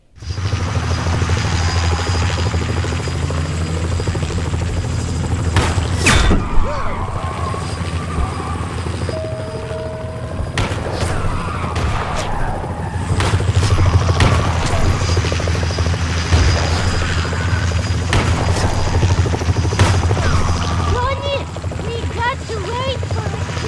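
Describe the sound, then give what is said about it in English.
A helicopter flies in a video game level where a mob boss fires from a chopper. Its loud, steady rotor whir runs throughout, broken by a few sharp bursts and blasts, with brief electronic game tones near the end. “the mob boss is in a chopper, and you have to dodge his shots”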